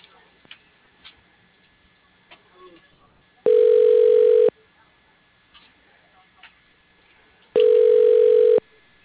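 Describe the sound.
A telephone ringback tone sounds while a call is transferred to voicemail: two steady, mid-pitched buzzing tones, each about one second long and roughly three seconds apart, over a quiet line with faint ticks.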